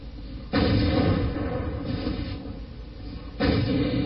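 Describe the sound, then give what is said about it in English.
Tank gunfire in a video game battle, with German tanks attacking a sawmill: two heavy booms, one early and one near the end, over a continuous loud low rumble. “FF Egerton Sachs is lost his light tank to a German tank attacking the sawmill.”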